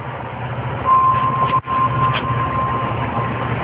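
Steady rumble of a moving train, heard from inside among the passenger cars, with a thin high squeal running through the middle and one brief dip in level; no talk.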